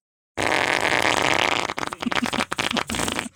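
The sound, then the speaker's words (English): A person imitates a fart with their mouth, as if someone broke wind on a subway: a loud, sustained raspy blast, then a string of shorter sputtering bursts. “If somebody farted like this, what I'm about to do”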